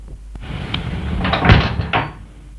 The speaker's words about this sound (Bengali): দরওয়াজা বন্ধ করলে কেন? খোলো দরওয়াজা, দরওয়াজা খোলো, খোলো।